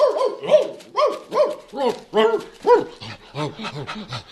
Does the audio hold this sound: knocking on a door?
no